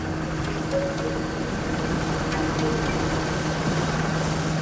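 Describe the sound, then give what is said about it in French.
Steady rotor and engine drone of a Super Puma air force helicopter setting down on a stadium lawn, a continuous, even roar with a faint tonal whine and no voices. “Une demi-heure plus tard, un premier hélicoptère Super Puma de l'armée de l'air se pose sur la pelouse de Furiani.”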